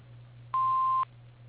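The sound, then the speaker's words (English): Answering machine beep: one steady mid-pitched electronic tone lasting about half a second, clean and clear over a faint, constant low hum. “please leave your name and number after the beep and someone will get back with you.”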